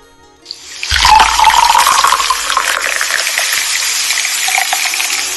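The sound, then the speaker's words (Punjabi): Tea pours into a cup. After a small click, a loud, steady liquid stream starts abruptly and runs on evenly, with a hissing, splashing texture. “ਚਾਹ ਦਾ ਪਿਆਲਾ ਉਹਨਾਂ ਨੇ ਭਰ ਦਿੱਤਾ ਸਾਡੇ ਲਈ”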